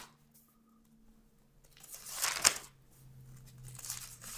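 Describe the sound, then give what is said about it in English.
Book pages turned by hand make a soft papery rustle that swells briefly near the middle into a sharp crinkle, then fades back to near silence. “I'm turning pages, I hope you can hear it.”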